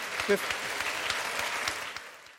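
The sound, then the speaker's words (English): Audience applause at the close of a debate event, a steady patter of many hands clapping at moderate loudness, fading away toward the end. “Before I let you go, round of applause.”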